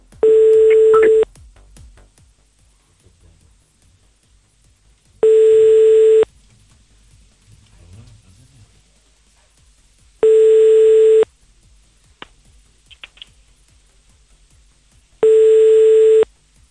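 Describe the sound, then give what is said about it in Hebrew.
Ringback tone of an outgoing phone call that goes unanswered: four steady one-second beeps, evenly spaced by long gaps of near silence, with no voices. “הנה, אנחנו מחייגים לאברהם”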